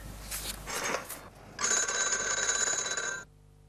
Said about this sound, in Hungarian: A vidéki hívásoknál 1964. A külföldieknél pedig 1972 óta kell egy második búgásra, vagyis vonalhangra várni a szám tárcsázása előtt.